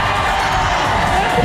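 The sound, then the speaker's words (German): Crowd cheering on stage in Meiningen after a world-record group dance: a loud, steady, dense roar of many voices holds evenly through the whole moment. “Und am Ende, als der Song vorbei war, klang's auf der Bühne so. Meiningen, ihr dürft jubeln.”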